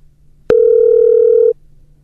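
A single steady telephone ringback tone sounds while a call is being connected. It is one clear, even-pitched beep about a second long, with no voices.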